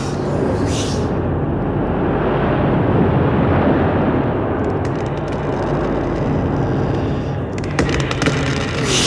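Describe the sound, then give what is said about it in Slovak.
Strong wind howls in a storm at sea around a sailing ship, a loud, unbroken roaring rush with brief crackling bursts near the start and again toward the end. “Nedokážem to, ten vietor!”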